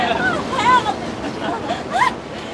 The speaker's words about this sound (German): So hohe Brecher haben wir schon lange nicht mehr gehabt.